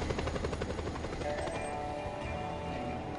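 Steady engine drone of a plane flying in a video game, a dense, continuous roar that holds level from start to finish.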